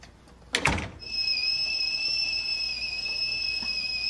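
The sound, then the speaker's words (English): A door being closed at a house doorstep: one short, sharp bump, then a steady, high, thin whistling tone that continues faintly to the end. “She closes the door.”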